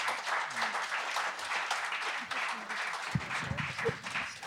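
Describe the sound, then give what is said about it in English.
Audience applause at a live event at the 10th Annual Monroe Mandolin Camp, as two guests are welcomed to the stage: sustained, dense clapping at a fairly even level, with a few low bumps near the end. “So put your hands together for Heidi and Mike,”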